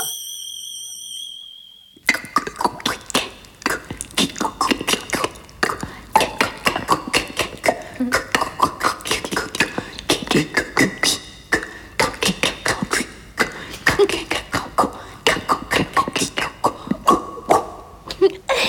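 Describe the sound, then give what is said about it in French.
Soaked shoes squelch in water on a flooded floor, making many quick, squishy steps in a steady, uneven rhythm that carries on for over fifteen seconds with no talk over them. “Ah oh, mes chaussures sont toutes mouillées, faut que je les enlève moi. Et comment elles chantent tes chaussures dans l'eau?”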